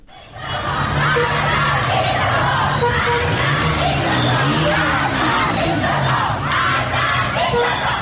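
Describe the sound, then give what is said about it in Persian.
Crowd of protesters, schoolgirls in Qom, Iran, chanting a 'death to the dictator' slogan in unison, loud and continuous for the whole stretch with a rough, rhythmic shouting quality. “شمار از دختران در قم چادرهایشان را در دست گرفتند و شعار مرگ به دیکتاتور سر دادند.”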